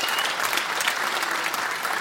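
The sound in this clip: Audience applause fills the room as a vinyl album prize is handed to a winner, a dense, steady wash of many hands clapping at an even loudness throughout, with no voices standing out.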